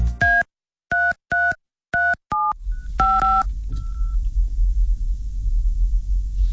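A telephone number is dialed on a keypad: a quick series of crisp, loud beeps in an irregular rhythm, followed by a steady low rumble with faint tones over it.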